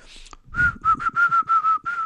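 A person whistles a steady, fairly high, level note in a quick series of short bursts, with no talking over it.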